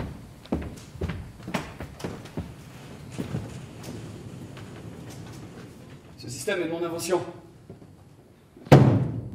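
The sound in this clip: A door is shut in a staging of Ibsen's The Wild Duck. A few soft knocks and thumps come first, a voice speaks briefly, and then one loud, heavy closing thud lands near the end.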